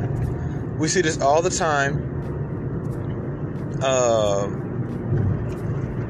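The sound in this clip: Car interior noise while driving: a steady low rumble runs throughout, with a voice speaking over it in two stretches.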